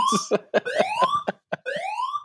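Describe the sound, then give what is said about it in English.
A fire alarm going off, sounding loud repeated rising electronic sweeps interleaved with short sharp beeps, a harsh steady warning pattern with no talk. “I've got a fire alarm going off”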